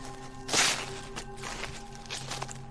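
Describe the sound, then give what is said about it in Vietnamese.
Footsteps rustling through a pile of dry leaves in a dense, overgrown forest: a few soft, crunching bursts over a low steady hum, faint and with no talk. “Tiếng bước chân của ông Sơn đi dưới đống lá khô cứ lạo xào, càng làm cho người ta cảm giác ghê rợn.”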